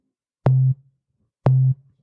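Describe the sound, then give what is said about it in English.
A synthesizer voice playing a sine wave: two short, low, pure tones, each with a clicky attack, sounding alone and evenly spaced about a second apart. “Now let's do voice 2 so we have our cool sine wave again.”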